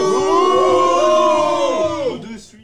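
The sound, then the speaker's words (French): A live show audience boos on cue, a sustained chorus of voices holding a droning tone for about two seconds, then bending down in pitch and fading out. “public, est-ce qu'on peut lui faire un bouh”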